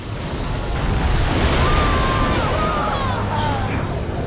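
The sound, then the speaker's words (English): An ocean wave breaks over a reef, a dense, steady roar of churning surf and white water that holds loud and even from start to finish with no voices. “Anne-Marie plunges off her board, and the wave crashes down.”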